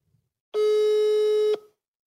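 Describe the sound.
A telephone tone sounds after a dropped call: one steady, mid-pitched beep held for about a second, alone on a silent line.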